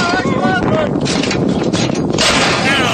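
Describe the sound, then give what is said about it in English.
Heavy big-caliber gunfire rumbles through strong wind buffeting. The blasts merge into a dense, continuous roar, and people talk over it. “I don't know calibers of guns that big, but...”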